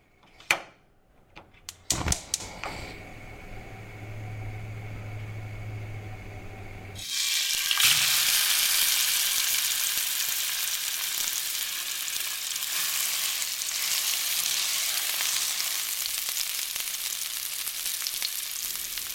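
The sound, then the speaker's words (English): Food sizzles and fries in a kitchen. A few sharp clinks and a low hum come first, then a loud, steady hiss of frying runs unbroken to the end. “producer James Keyes explores the sounds of a kitchen and just how beautiful they can be”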